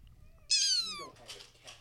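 A cat lets out one sharp, high meow that slides downward in pitch, followed by a few softer, fainter murmurs.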